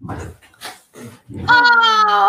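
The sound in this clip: Female dog whimpering: a few short vocal sounds followed by a sustained, high tonal whine that holds steady to the end.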